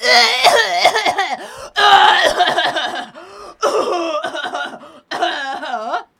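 Coughing and throat clearing from one person, in a few long, strained, voiced bursts separated by short gaps. The bursts are fairly loud and harsh, with no other sound.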